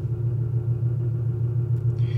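Low, steady rumble of a car engine as the car comes to a stop, a deep even hum that holds without rising or falling, with a faint hiss entering near the end.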